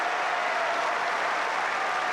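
Tennis crowd on Number One Court applauding during a match, a short, steady burst of dense clapping at an even level.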